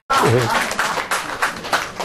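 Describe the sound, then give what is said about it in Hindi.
Audience clapping for a recited Hindi muktak poem at a poetry gathering: a brief voice opens, followed by scattered, uneven claps that rise and fade rather than forming a full ovation. “इतने अच्छे मुक्तक पे ताली बजनी चाहिए।”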